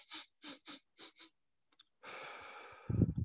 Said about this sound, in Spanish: Lo que vamos a hacer es oler así, es eh, respirar de esa manera hasta llenar nuestros pulmones, respiraciones cortas.